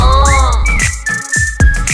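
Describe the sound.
A whistled melody slides upward and then holds a high, clear note over a pop backing track with a steady, punchy beat.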